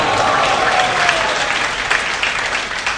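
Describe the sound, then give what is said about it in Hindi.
Audience members clap with both hands during a Hindi Hare Krishna devotional talk. The loud, continuous clapping holds a steady, even level without pause. “तो जो लोग ताली बजा रहे हैं, जिनको अच्छा लग रहा है, हम चाहते हैं वो सब लोग जो है इसी तरह दोनों हाथों से”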